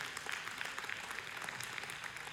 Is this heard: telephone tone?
no